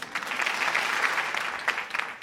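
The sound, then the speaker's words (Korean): Studio audience applause welcomes an arriving guest in a radio studio. Dense, even clapping holds steady for about two seconds, with a few sharper, louder claps near the end. “자, 우리 모두 박수.”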